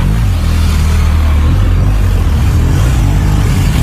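Steady engine rumble of a vehicle driving off on a training course where a figure-eight is ridden, a loud, continuous low drone with little change in pitch and no clear revving.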